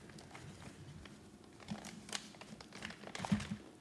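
A bag of espresso-blend coffee beans is ripped open with faint crinkling and tearing of the packaging, a soft rustle that builds into a few sharper crackles near the end.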